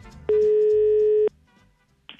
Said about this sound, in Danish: Da ringer vi nå